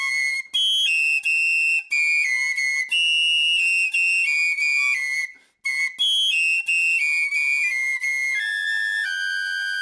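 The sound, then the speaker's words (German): Several high piccolo flute tones sound together, shrill and sustained. They shift in stepwise jumps with a few brief breaks, loud and alone with no voices. “Und Achtung, jetzt kommen hohe Piccolo-Flötenklänge.”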